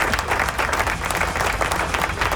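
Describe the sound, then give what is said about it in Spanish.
Loud, dense applause from a crowd, clapping steadily and continuously through the whole stretch with no voices over it. “¡Aplauso, aplauso, aplauso! Ahí están.”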